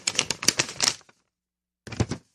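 Perforated tear-off strips being ripped from paper checks: a rapid, crackling rip lasting about a second, a pause, then a second, shorter rip.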